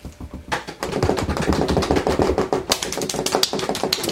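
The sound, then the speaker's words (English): A rapid drum roll: a dense, continuous rattle of quick strikes that enters softly and then runs loud and steady to the end, with no talk. “And tonight's topic, drum roll.”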